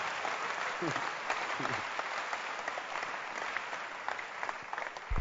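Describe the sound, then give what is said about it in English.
A church audience applauds its pastor: dense, steady clapping fills about five seconds at an even level, with a few brief voices calling out in the middle. “Clap for the bad pastor.”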